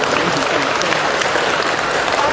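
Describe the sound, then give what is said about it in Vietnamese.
An audience at a Catholic church gathering gives thick, continuous applause. It is loud and even throughout, with no break or pause. “một tràng pháo tay thật lớn cho người chị em này.”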